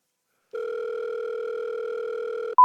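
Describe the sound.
A telephone tone while a call waits to be answered: one steady, even electronic tone holds for about two seconds, then cuts off into a brief higher beep.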